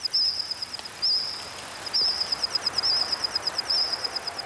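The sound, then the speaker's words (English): AI-modeled calls of prehistoric insects from the dinosaur era, reconstructed from the fossil record: a high, rapid, pulsing chirp repeating in regular bursts over a steady hiss, heard alone. “Using the fossil record and AI, scientists have modeled the calls of insects that lived alongside dinosaurs.”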